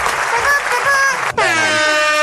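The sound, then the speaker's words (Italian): An air horn sounds during a pause in a music interview: two long, loud, blaring blasts with rich stacked overtones, split by a very brief break. “Anche la trombetta”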